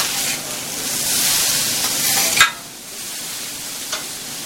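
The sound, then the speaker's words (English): Eggs fry in butter on a grill, hissing in a steady, loud sizzle. A sharp scrape of a utensil cuts in near the middle, with a fainter one later. No one talks. “I do all my eggs on the grill instead of in a pan.”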